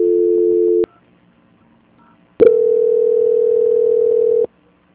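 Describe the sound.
Telephone tones play during a call transfer: a short steady tone cuts off, and after a silent gap a second, longer tone of the same even pitch holds for about two seconds before stopping sharply.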